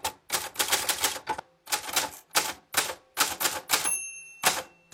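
Rapid clacking of keys on an old typewriter that once belonged to a great-grandfather, struck in quick bursts with brief pauses, followed by a single bright bell ding near the end.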